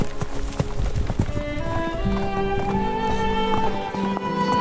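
Hoofbeats of a galloping horse carrying a rider pound in a rapid, continuous rhythm from start to finish, loud and steady.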